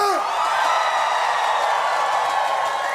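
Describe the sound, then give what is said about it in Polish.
A concert crowd at a small stage cheers and whoops in a loud, sustained roar that holds steady throughout. “Zróbcie hałas dla samych siebie!”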